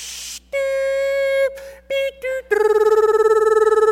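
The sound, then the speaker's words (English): A human voice imitates an old dial-up modem connecting to AOL over a phone line: a short hiss, then a steady held tone, a few brief beeps, and finally a long, loud warbling tone. “there is nothing wrong with my mic. It is me simply making sounds like the old computers used to do.”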